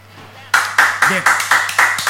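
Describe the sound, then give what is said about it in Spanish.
Clapping in a studio: seven sharp, evenly spaced bursts of applause-like claps, loud and rhythmic, starting after a brief quiet lead-in with a faint steady hum beneath. “No aplaudimos a River, aplaudimos a Aurora que acaba de empatarle en Villa Ingenio a Always Ready.”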